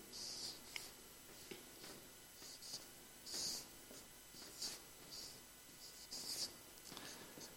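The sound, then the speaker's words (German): Handwriting, faint scratchy pen strokes in short irregular bursts with brief pauses between them. “Ich, ich schreibe es euch mal hier hin.”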